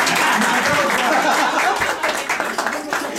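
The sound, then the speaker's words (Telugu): Conference audience applauding themselves at the close of a gathering: dense, steady clapping that fills the whole stretch, loud and even throughout. “మీకు మీరే చప్పట్లు కొట్టుకోండి.”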